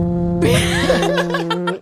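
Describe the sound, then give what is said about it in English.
A voice imitates a fart that sounded like a steamboat horn, a loud, raspy, buzzing blast over a low droning tone, with laughter mixing in near the end. “Cut to my new nickname is Steamboat because the fart was literally like”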